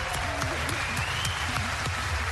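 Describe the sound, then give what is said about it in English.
U.S. lawmakers applaud the leader of Ukraine in an emotional moment in Congress, producing fairly faint, dense clapping that continues steadily without a break. “An emotional moment as U.S. lawmakers applauded the leader of Ukraine.”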